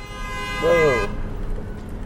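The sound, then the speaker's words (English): A car horn honks from behind a 2011 Ford Crown Victoria being driven slowly and carefully: a single brief, mid-pitched toot of about half a second over a steady road rumble. “people always get behind me and honk the horn.”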